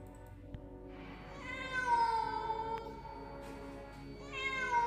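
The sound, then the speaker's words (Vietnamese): A cat meows faintly in the distance at night somewhere near a desolate village shrine, giving a few long, drawn-out, wavering cries alone against quiet background. “Bỗng một tiếng kêu vang lên khiến hắn giật mình, là tiếng của một con mèo kêu văng vẳng ở đâu đó.”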